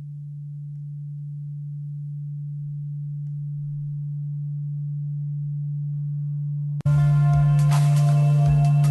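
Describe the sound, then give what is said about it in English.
A binaural-beat tone track meant to mimic a drug high begins with a steady, low, pure hum that plays alone for about seven seconds. Music then enters abruptly over it, and the tone continues underneath. “You can hear the binaural beat in the background, but then there's music over it.”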